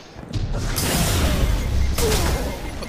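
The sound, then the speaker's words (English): Shotgun fire in a video game Control match: heavy, sharp blasts that cut through a dense rumbling mix of game action noise. “He just dodged through my shotgun. My shotgun hit him. He dodged, and it glitched through him.”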